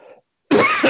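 A throat being cleared with a single short, harsh cough, loud and alone, following a brief faint sound and a moment of silence.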